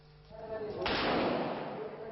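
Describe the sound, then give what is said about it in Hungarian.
Gunfire at the border guard headquarters during a border guard mutiny in Bangladesh: a single sharp, loud report bursts out and leaves a noisy, rumbling tail. A faint voice is heard before it. “A határőrség főhadiszállásánál dörögnek a lövések.”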